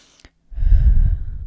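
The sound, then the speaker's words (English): A deep breath taken during a guided relaxation exercise: a brief click, then a long, loud, breathy rush of air lasting about a second that fades gradually at the end. “So let's just take a deep breath together, in and out.”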